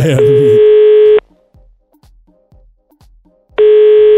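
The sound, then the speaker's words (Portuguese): Telephone ringback tone plays on the line while calling: two long, steady tones separated by a silent gap of a few seconds, with a brief voice overlapping the start. “Vamos ligar pro Gustavo.”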